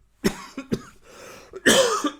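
A fit of several sharp, rough coughs in irregular bursts: a few short ones first, then a strained stretch and a longer, louder cough near the end, followed by one last small hack.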